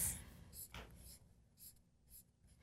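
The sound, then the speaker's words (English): Handwriting with a pen or pencil on paper: faint, scratchy strokes come in a few short, uneven bursts with quiet gaps between them, and no voices. “I'm just going to write it that way. Be a painter.”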